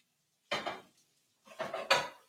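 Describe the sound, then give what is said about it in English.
Frozen pierogi are tossed into a frying pan, landing in sharp clattering bursts: one short group, then after a pause a longer cluster of clunks against the pan. “I can just immediately toss these right into a pan, let them cook for a little bit.”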